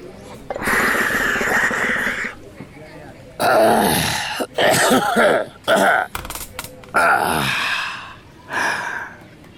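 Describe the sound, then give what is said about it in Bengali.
Throat clearing after a smoke of tobacco: several loud, harsh, rasping vocal bursts of uneven length, some short and clipped, others drawn out, separated by brief pauses. “ডোমরু আয়েশ করে খানিকক্ষণ ধূমপান করল, তারপর বার দুয়েক গলা খাঁকারি দিয়ে চাটাইয়ের ওপর গুছিয়ে বসল।”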